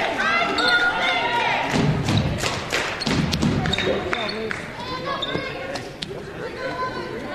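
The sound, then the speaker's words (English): A basketball thuds and bounces after a missed free throw rolls off the rim during a game, with many sharp knocks over constant crowd noise and voices. “And the first free throw rolls off the rim.”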